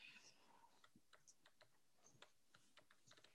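Faint typing on a computer keyboard: many light, irregular clicks tapping along in uneven bursts, with no voices over them.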